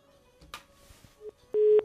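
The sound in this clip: A phone-in call to a radio show cuts off: a few faint clicks and a short blip on the line, then a single loud, steady busy-signal beep.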